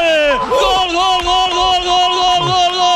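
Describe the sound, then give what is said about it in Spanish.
Visiting Villarreal football fans celebrate in the Sardinero stadium with a loud, continuous crowd roar and sustained chanting, while a voice talks over it. “lo celebran los aficionados del Villarreal desplazados, hay alguno que otro y en el Sardinero, Unos cuantos en la curva sur”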